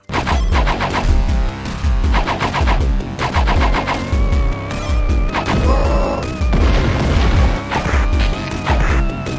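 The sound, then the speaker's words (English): Tinny Sega Genesis video game sounds: dense, loud synthesized music with rapid rhythmic percussive hits and sustained high, thin synth tones running continuously throughout. “That is like a sound palette that only exists on the Genesis. It's so tinny.”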